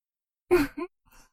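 A sighing exhale during a guided breathing exercise: one soft, breathy release followed by a shorter puff and then a faint trailing breath, all quiet and without speech.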